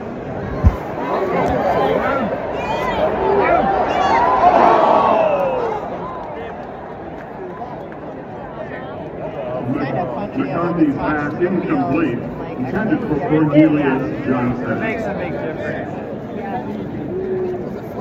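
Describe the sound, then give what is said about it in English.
Dense crowd hubbub from 110,000 people at a Michigan football game. The continuous murmur of many voices swells around the fifth second and again near the end. “110,000 people. It sounds like this.”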